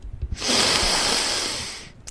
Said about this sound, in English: Just take a breath. A deep breath will help to eliminate the nerves.